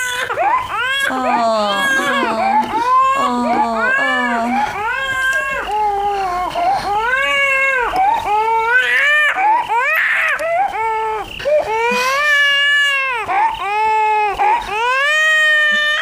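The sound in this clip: A baby crying hard and refusing to be soothed: loud, continuous wailing in repeated high-pitched, rising and falling cries with barely a pause throughout.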